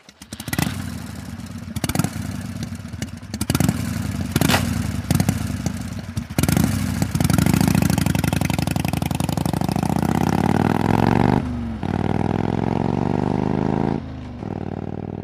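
A motorcycle engine is heard after a run of sharp mechanical clicks and clatters. It then runs with a loud, steady, low rumble, dipping briefly twice before settling.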